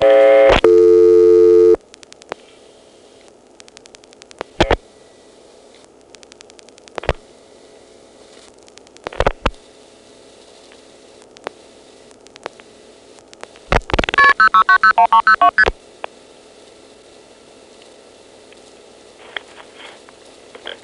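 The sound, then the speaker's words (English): An old telephone line going off hook while a number is dialed: a steady tone that cuts off, then sharp isolated clicks several seconds apart, a burst of rapid tones and crackle, and a few faint clicks after. “dial 8, and start trying to dial a number. It'll probably interrupt me, though, by just going off hook and triggering the ANI, because it probably won't be listening for dial pulses.”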